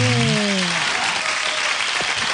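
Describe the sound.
Applause plays as a sound effect: a dense, steady patter of many hands clapping, with a voice briefly sounding over its opening moments.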